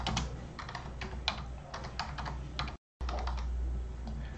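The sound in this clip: Computer keyboard typing as a WhatsApp phone number is keyed in: many rapid, crisp keystrokes in uneven bursts over a steady low hum, broken once by a brief total silence before the tapping resumes.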